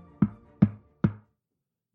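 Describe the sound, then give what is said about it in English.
Someone knocks on a door in a home with three sharp, evenly spaced raps, followed by a pause and the start of another knock. “she is interrupted by a knock at her door”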